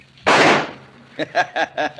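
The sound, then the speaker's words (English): A rifle shot is fired at the stub of a branch on a scrub pine about 100 yards away: a single loud, sharp crack that decays quickly, followed by a voice speaking in short phrases. “Now, just to be sure my sights are lined up good, see that stub of a branch on that scrub pine about 100 yards over there? Yeah, but don't shoot at it. Why not? Somebody might hear the shot.”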